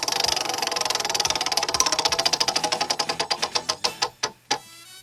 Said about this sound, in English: It's a big wheel we have sitting here in the studio. It hasn't been cleaned in a while, but that's okay.